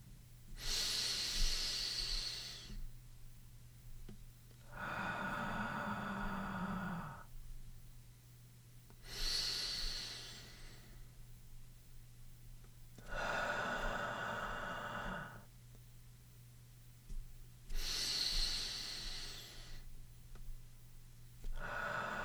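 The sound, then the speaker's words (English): Slow guided breathing, with airy inhalations and exhalations of about four seconds each alternating in a calm, even rhythm. Each breath is a soft, breathy hiss with short pauses between, over a steady low hum. “We'll take 4 breaths, each inhalation and exhalation lasting 4 seconds. You can breathe along with me.”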